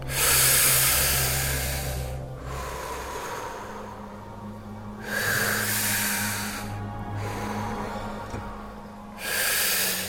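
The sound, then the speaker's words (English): Deep breathing during a guided relaxation exercise: slow, loud, airy breaths with a rough, hissing texture, each drawn out for a second or two and separated by long, quieter pauses. “And now take a couple of breaths with me, real breaths.”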